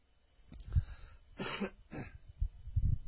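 A person clears their throat in a few rough, raspy bursts of uneven length, fairly faint and without speech between them.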